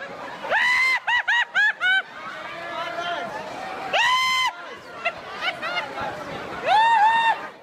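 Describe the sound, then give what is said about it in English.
Crowd of shoppers scrambling for TVs and other electrical items at midnight during a Tesco Extra Black Friday sale in Craigavon: loud shouts and screams over a dense babble of voices, with a burst of short repeated cries near the start. “This is the sound of hundreds of shoppers wrestling each other for TVs and other electrical items at the Craigavon shop at midnight last night.”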